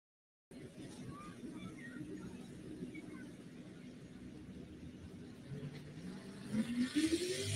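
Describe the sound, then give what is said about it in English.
A pulling tractor's engine runs at a tractor pull, a steady low rumbling drone that grows louder and rises in pitch near the end. “Another one of them tough running Texas tractors over here.”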